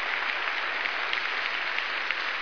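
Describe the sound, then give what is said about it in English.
An audience applauding: dense, steady clapping from many hands that fills the whole clip at an even, moderate loudness. There is no break and no voices. “Give them a round of applause for being here today.”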